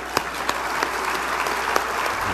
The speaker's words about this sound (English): Folks, a nice round of applause for Bart Schott.